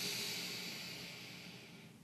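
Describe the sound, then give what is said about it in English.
A slow, soft inhaled breath during a breathwork exercise, a faint airy hiss that gradually fades as the breath is drawn in and held. “Inhale, hold the breath.”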